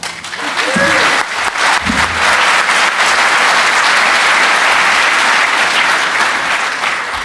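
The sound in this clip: Audience applause welcoming a speaker to a talk on penetration testing: loud, dense clapping that fills the whole stretch at a steady level, with a brief voice heard near the start.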